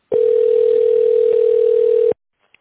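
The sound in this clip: A single steady telephone tone, mid-pitched and even, holds for about two seconds while an office call connects to a secretary, then cuts off abruptly into silence with one faint click.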